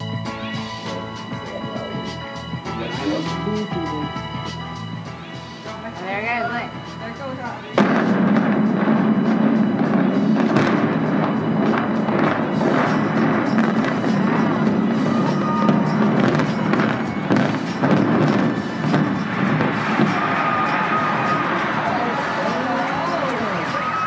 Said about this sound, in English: 378-foot building, which set a world record for the tallest reinforced concrete building ever exploded, or imploded rather, in this case, in 2009. Here's a clip of that.